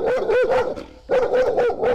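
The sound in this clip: A stressed Romanian female dog barks on a busy city footpath, giving sharp, high-pitched yelping barks in two quick bursts separated by a short pause. The barks are loud and heard on their own.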